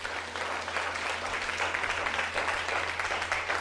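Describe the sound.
A church audience applauding during a sermon: steady, fairly faint clapping that continues evenly throughout, with no voices standing out.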